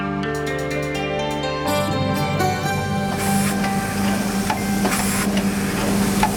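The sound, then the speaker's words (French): A soap-stamping machine presses Marseille soap bars at the Fer à Cheval soap factory in Marseille, giving off a continuous mechanical clatter with hissing, noisy bursts. “C'est le bruit de la machine qui est en train de poinçonner les briques de savon de Marseille et qui ressortent de l'autre côté.”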